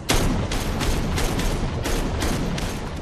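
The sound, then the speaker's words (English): Rapid repeated gunshots ring out as a weapon is fired again and again from a doorway into a man's torso. Many loud, sharp cracks follow in a steady series over a dense, rumbling background. “Standing in a doorway, Zoe shoots the blonde man repeatedly in the torso.”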